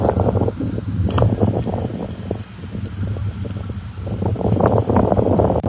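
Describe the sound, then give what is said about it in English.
Strong wind buffeting a microphone, a loud, continuous low rumble that swells and dips in uneven gusts, with no voices present. “The wind is really something today, so we'll work on that.”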